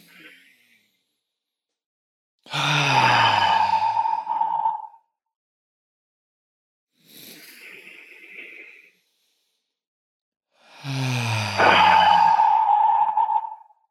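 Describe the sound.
Three deep, deliberate breaths, each an active inhale and a passive exhale, are separated by silence. The first and last are loud and sighing, and the middle one is softer and hissier.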